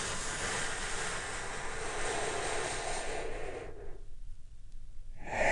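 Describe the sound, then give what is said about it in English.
A long, breathy deep inhale during a guided relaxation breathing exercise, sustained for several seconds, then a short quiet gap and the start of a strong exhale at the end; no talking. “Let's take a big, deep, healing breath right now. Here we go.”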